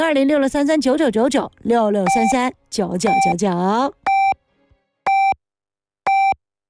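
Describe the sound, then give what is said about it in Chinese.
Hourly radio time-signal pips mark ten o'clock Beijing time. After a stretch of talk, three short, high, evenly spaced beeps sound about a second apart and stand alone in silence. “北京时间10点整， 正点报时”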